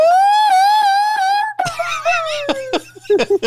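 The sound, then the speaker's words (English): A racing driver's voice imitates a V10 racing engine with a high, sustained, wavering tone like a revving motor, then breaks off into laughter and choppy vocal sounds. “Andrew Miller asks if you can do more of the V10 sound effects, because he loves hearing you do the V10 sound effects.”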